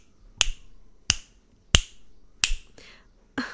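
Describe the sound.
Crisp finger snaps ring out alone, evenly spaced at an unhurried pace with short quiet gaps between them; the last couple sound slightly softer and less sharp.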